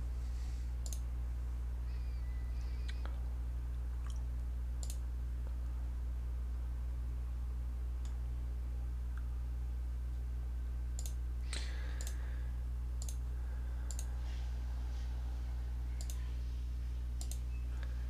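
Computer mouse clicking on a game character during a tabletop role-playing session. Many faint, scattered clicks sound over a steady low hum.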